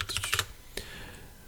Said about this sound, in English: Let me type in Halo on this one.